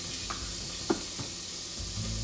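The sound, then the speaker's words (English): Onions sizzle in an overly hot frying pan with a faint, steady hiss, broken by a few soft clicks of stirring. “So the pan, I put it on too hot. It's really high. So I turned down the heat on it.”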